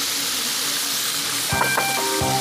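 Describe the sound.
Steady hiss of food deep-frying in hot oil, a continuous bubbling sizzle throughout, joined in the second half by a few sharp metallic clinks.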